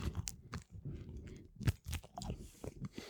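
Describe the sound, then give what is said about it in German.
Crusty garlic ciabatta, floured underneath and baked crisp on top, being broken and chewed, with faint irregular crunches and soft chewing sounds throughout. “Und wenn ich das jetzt aufgebrochen habe, man sieht so hier ein paar Knoblauchstückchen drin. Mhm. Es ist sehr fluffig, typisch Ciabatta. Unten bemehlt, oben sehr kross gebacken.”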